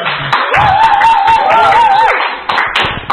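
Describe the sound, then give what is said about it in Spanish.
Applause and hand clapping at an online Mexican electronic music festival, a dense, loud, steady patter of hands throughout, with a wavering tone held through the middle. “Un aplauso, que se oiga el aplauso.”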